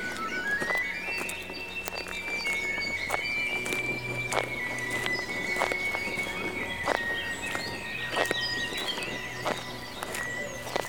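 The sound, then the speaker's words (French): Footsteps of someone strolling in new shoes, the left shoe noisier than the right, make a steady rhythm of many crisp steps under a soft background wash. “Je teste mes nouvelles chaussures. Le côté gauche fait plus de bruit que le droit.”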